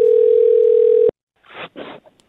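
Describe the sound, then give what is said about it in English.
A telephone dial tone sounds while a phone call is being placed: a loud, steady, unbroken tone for about a second that cuts off abruptly, followed by two short noisy bursts. “Here is my call to Mason.”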